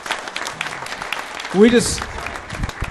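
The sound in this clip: Brief applause from a church audience welcoming a woman home at a morning service: scattered, moderately loud clapping with a short vocal sound partway through.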